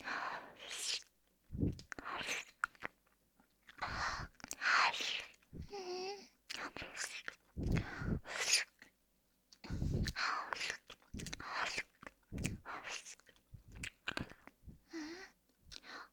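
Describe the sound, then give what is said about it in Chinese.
Wet ear-licking and eating mouth sounds for ASMR: many irregular close smacks, slurps and crunchy chewing bursts, soft and intimate, scattered with brief pauses. “主人的耳朵好好吃啊。”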